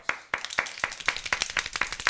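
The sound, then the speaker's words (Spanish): Hand clapping for a quiz winner, crisp and evenly spaced at about four claps per second, sparse rather than a dense crowd, with softer claps slipping in between. “¡Bravo! ¡Aplausos!”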